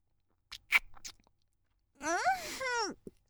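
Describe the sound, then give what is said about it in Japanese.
Wet mouth and lip sounds of someone tasting milk dripping from an overflowing bottle: a few short smacks and clicks, then a drawn-out voiced hum of approval. “あふれて垂れてるのはちょっとだけ味見。”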